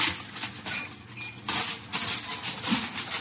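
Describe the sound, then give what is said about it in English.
Aluminium foil is handled and laid on the bottom of an oven before a sandwich goes in, giving irregular bursts of crisp crinkling and rustling with short quiet gaps between them. “I'll put this foil on the bottom so I can put the sandwich now into the oven.”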